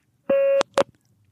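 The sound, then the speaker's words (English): A single beep sounds from a phone recording prompt: a steady, mid-pitched electronic tone lasting about a third of a second. Two brief, sharp clicks follow. “Now, don't forget to wait for the beep.”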